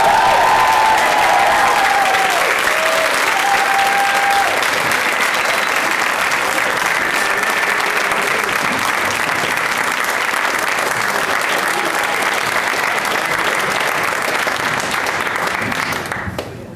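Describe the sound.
Studio audience applause welcoming three guests onto a talk show: dense, steady clapping and crowd noise held at a loud, even level for about sixteen seconds before tapering off at the very end.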